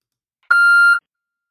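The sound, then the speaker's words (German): An answering machine beep sounds before its messages play: a single steady, mid-high electronic tone lasting about half a second, clean and alone, with no other sound around it. “Aber ich drücke mal hier auf den Knopf. Zwei neue hm. Nachrichten.”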